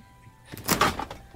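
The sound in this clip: A freezer door being shut: one brief muffled thump with a short rattling tail, heard alone and fairly faint.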